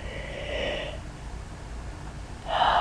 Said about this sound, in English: Yes, I just yawned, I admit.